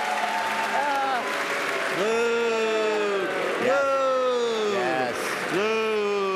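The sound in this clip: Canned applause with whooping cheers, a steady wash of clapping overlaid by several rising and falling whoops that recur through the stretch.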